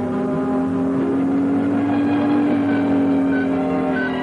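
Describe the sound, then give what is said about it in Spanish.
A car engine accelerating after a gear change during a 1964 spy-film car chase, a loud, steady drone with a faintly rising hum and no voices. “Bond cambia de marcha y acelera con una leve sonrisa.”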